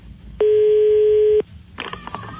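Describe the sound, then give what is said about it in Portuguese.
Touch-tone telephone dialing, placing a call about a newspaper ad: one steady, loud tone lasting about a second, then a quick, irregular cluster of short, clipped beeps. “Ligar pro Ratos Topolino. Vamos ver o que que é isso.”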